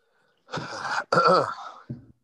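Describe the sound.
A man clears his throat in three rough, raspy bursts: two long, forceful rasps back to back, then a short final one. The bursts are fairly loud, and no speech is heard.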